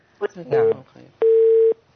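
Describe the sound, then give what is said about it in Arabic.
Phone line tone after a call cuts off: brief speech mixed with short tone blips, then a steady, clear beep lasting about half a second. “اتصال انقطع”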